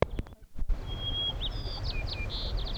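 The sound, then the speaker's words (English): A white-crowned sparrow sings: a clear, high, sustained whistle followed by a series of short buzzy notes and slurred phrases over a soft background hiss, after a few brief knocks at the start. “White Crown Sparrow B.”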